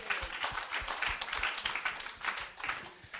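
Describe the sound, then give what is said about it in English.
Applause from an audience at a presentation, a brisk, uneven patter of clapping hands in quick bursts, fairly faint throughout. “Bravo! Give yourself a hand on that one.”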